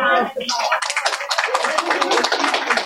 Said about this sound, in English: So how many teachers are out there in the audience? I heard there's a couple teachers. Give them a hand.